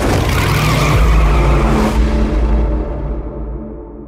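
Racing cars roaring at speed in a film race sequence: a loud, rushing engine blast with tire squeal that drops off abruptly midway and then fades out.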